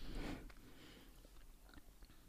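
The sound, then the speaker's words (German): Faint chewing of a big bite of food: an opening bite followed by soft, irregular moist munching, quiet and alone without talk. “Ich hab den großen Bissen genommen.”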